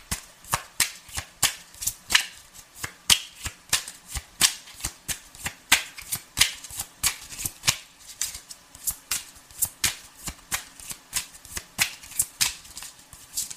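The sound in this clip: Tarot cards being shuffled give many crisp, rapid snaps in a steady, even rhythm that runs the whole time, with no talk over them.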